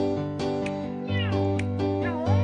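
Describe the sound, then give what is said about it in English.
Two pet cats meowing, a quick series of high, wavering meows with sliding pitch, some overlapping, over a steady low tonal hum. “Samuel Joseph and Felix Jones, those are his cats that he owns. Two little putty tats that listen to him play the piano”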